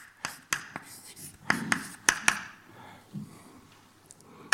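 Scratchy pen or chalk strokes from someone writing an equation, with several sharp taps and clicks scattered through soft scraping, fairly faint and without talk.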